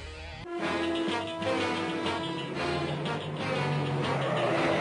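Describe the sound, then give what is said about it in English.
Theme music plays continuously, with sustained tonal notes, a steady low bass line and a busy, bright upper layer, fairly loud throughout with no voices. “This is the theme song you'll have in your head as you drive around in that Kalashnikov electric vehicle.”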